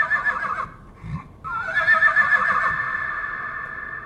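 A horse whinnies, a loud, high, quavering call that breaks off briefly and then resumes as a long, strong, wavering neigh that carries on to the end.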